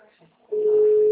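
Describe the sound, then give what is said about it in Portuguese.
A telephone rings on the line as one steady, even ring tone that starts abruptly after a brief faint murmur and holds at constant loudness to the end. “Ah, ça sonne ici.”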